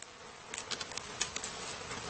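Bees swarming around a man taking honey without a protective mask: a faint, steady insect drone with small irregular swells as individual buzzes pass, with no voices.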